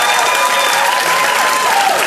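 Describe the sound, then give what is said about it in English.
A live audience at Largo in Los Angeles cheers and applauds, making a loud, unbroken roar of clapping mixed with shouts and cheers that stays at full strength throughout. “Hello, people of Earth! Hello, people of Los Angeles!”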